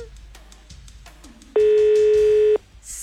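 A telephone ringing tone sounds once during a call in a prize game: a single steady, buzzy tone about a second long, loud and even, with faint murmur before and after it.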